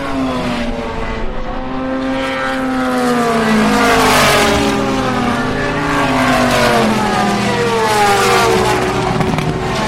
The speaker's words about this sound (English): There's your pick and mix audio of Ferraris, Porsches, Corvettes, Aston Martins. More Porsches, Corvettes.